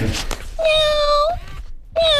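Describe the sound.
Robotic toy cat meowing: two flat, steady electronic meows of level pitch, the first long and the second cut off at the end, over faint background noise.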